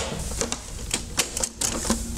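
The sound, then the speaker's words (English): A Betamax video cassette recorder ejects a tape with a quick series of light, sharp mechanical clicks and ticks, spaced unevenly over about two seconds. “Compare ejecting a tape on the Betamax to the VHS. First, watch the Betamax.”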